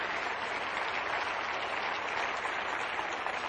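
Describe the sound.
Dense, steady applause from a church audience at a morning worship service, continuous and even for the whole stretch with no pauses or voices.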